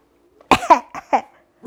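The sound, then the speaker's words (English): Throat clearing: a quick cluster of gruff, rasping bursts, a few close together, then a brief pause and one more short rasp at the end. “you cleared your throat like you had something to say”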